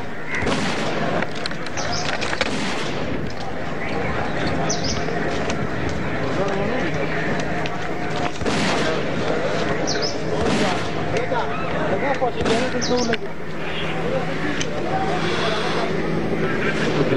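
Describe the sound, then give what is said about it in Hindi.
Loud explosions and heavy gunfire during a military operation against militants: repeated sharp blasts and bursts of firing break out every few seconds over a constant, dense background noise. “जोरदार धमाकों की आवाजें इसमें सुनी जा सकती हैं, जबकि शदीद फायरिंग की आवाज भी इसमें सुनी जा सकती है।”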